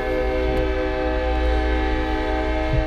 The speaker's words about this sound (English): Sorry about the train, y'all. Like I said, we're right next to a fucking train.